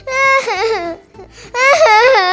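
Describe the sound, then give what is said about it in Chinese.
A voice imitating crying for a little truck character in a children's story after a tyre blowout; two wavering, high-pitched sobbing wails separated by a short pause. “突然，后方传来好大的声响，竟然爆胎了！ 这、这、这怎么办？已经跑不动了。 小红哭了起来。”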